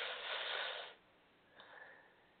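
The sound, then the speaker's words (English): A deep inhale during a seated guided breathing exercise: one strong, airy breath lasting about a second, then a fainter, shorter breath after a brief pause. “Let's close our eyes. No one's standing. Don't want anyone to fall, lose their balance. But let's breathe in.”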